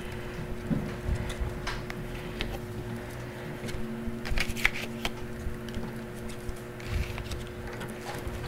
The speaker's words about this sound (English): But then I would just start putting up cards. And I'll just put them on the bottom because there's a thing there. Okay, and I actually overlap them.